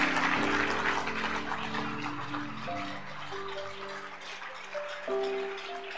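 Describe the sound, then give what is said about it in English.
Dense, continuous clapping from an audience at a church worship service fills the whole clip, with steady sustained musical tones running underneath. “If you clap.”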